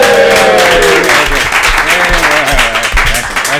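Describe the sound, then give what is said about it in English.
Live studio audience applause during a tech show, loud and dense throughout, with a voice speaking over the clapping. “All right, guys, come on, give it up.”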